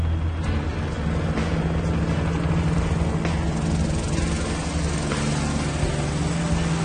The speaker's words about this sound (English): we're going to go for a helicopter ride. It's your first helicopter lesson.